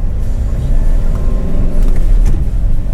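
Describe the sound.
Car driving up toward a hospital emergency entrance on a winter night: a steady low engine and road rumble that stays even throughout, with no talking.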